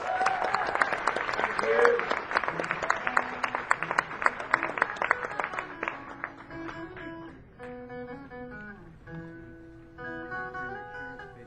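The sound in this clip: An audience bursts into applause to welcome a performer to the stage. Dense, loud clapping fills the first six seconds, then fades away as sustained instrumental notes take over.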